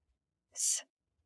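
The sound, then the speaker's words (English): A single deep breath in during a guided meditation: one short, breathy, airy rush lasting about a third of a second, rising and falling smoothly, with silence on either side. “So take a deep breath in on the count of three. One, two, three.”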